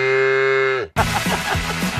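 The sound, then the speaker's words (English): A cow mooing in one long, steady, low-pitched call that dips slightly at the end, then cuts off abruptly into a busier, noisier passage. “Whoa, is that a buffalo? Babe, that's a cow.”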